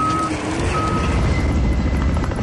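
Intermittent high electronic reversing beeps from construction machinery working at a wildfire, sounding in a few separate stretches over a loud, steady rumble of engines.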